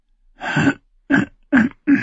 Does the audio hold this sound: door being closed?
no